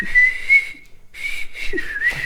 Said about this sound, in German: er saß auf dem Schiff, war am Schiffen und hat gepfiffen.